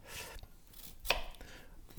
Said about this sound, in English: Just keep cutting onions